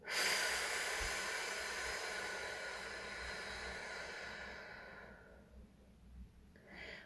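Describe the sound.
A long, deep exhale during a voice-training breathing exercise: a loud, breathy hiss that slowly fades over about five seconds, followed by quieter breath noise.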